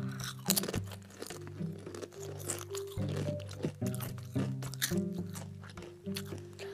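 Crunching of sour cream tortilla chips from a green bag, with many crisp, irregular bites and chews heard under a steady, tonal background sound.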